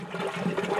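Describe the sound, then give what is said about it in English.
Compost tea brewing: compost and microbe food sources churn in oxygenated water with a steady, rushing bubbling that holds at an even level throughout, with no voices. “That's the sound of compost tea brewing.”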